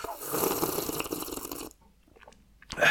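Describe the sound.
Someone chewing and crunching a biscuit: dense, crackly crunching for about a second and a half, then a quieter pause before another brief burst of noise at the end.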